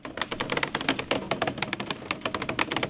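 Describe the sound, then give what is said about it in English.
Rapid clatter of construction workers unspooling several hundred feet of fiber optic cable in the woods: many sharp, dry clicks and taps tumbling in a quick, uneven rhythm, steady and moderately loud throughout, with no voices. “That's the sound of construction workers unspooling several hundred feet of fiber optic cable.”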